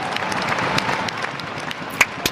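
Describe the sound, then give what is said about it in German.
Applause for a family of circus performers in Salzburg, a busy wash of clapping from a crowd, with a couple of sharper, louder claps standing out near the end. “Applaus für die Familie vom Cirque Alphonse in Salzburg.”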